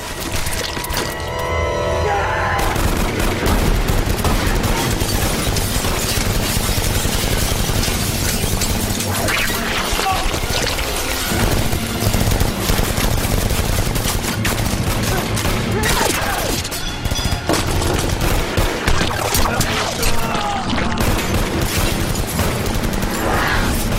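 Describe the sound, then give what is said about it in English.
Dense gunfire from an action film's sound mix: loud, continuous bursts of shots mixed with booms and mechanical clatter. The barrage runs without letup for about twenty-four seconds. “But another film that's got just very distinctive guns to me is Ninja Assassin.”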